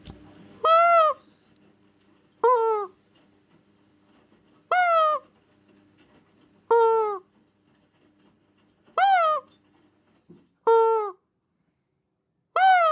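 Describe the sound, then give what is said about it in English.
Squeaky honks from a squeezed rubber chicken toy: seven loud, harmonic squawks spaced roughly two seconds apart over a quiet background, the last one cut off at the end. “So I grab one of those rubber chickens, and they kind of sound like this.”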